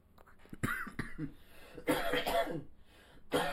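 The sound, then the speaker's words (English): A man in a coughing fit: several harsh, loud coughs in irregular bursts, with short gaps between clusters. “While he's having his cough attack”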